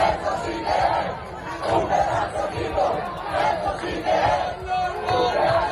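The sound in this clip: About 200 basketball fans chant and cheer for their team, coached by Chus Vidorreta, at Tenerife Norte airport after a historic quarterfinal win over Real Madrid. A crowd shouts in rhythmic, repeated bursts that swell and ease in regular waves.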